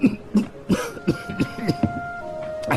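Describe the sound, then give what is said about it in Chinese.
A father coughs after choking on food: a rapid series of short, harsh coughs and throat-clearing bursts, fairly loud, over a faint steady tone. “哎呀，给爸噎着了。小薇，去，给爸再拿杯水来，拿水舀子。家伙事太小，我这嗓子都冒烟了。”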